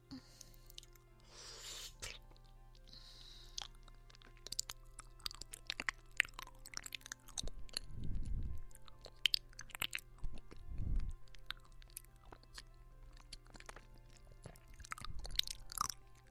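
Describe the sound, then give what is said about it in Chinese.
Someone eating food in small bites, with quiet, repeated wet chewing and soft crunching mouth sounds and occasional louder bites. “我们一小口一小口的吃，啊，这样子，”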